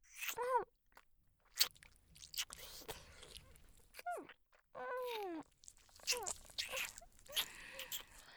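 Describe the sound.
Ear-licking mouth sounds: faint wet slurps, smacks and clicks come in irregular bursts, with soft breathy vocal moans between them.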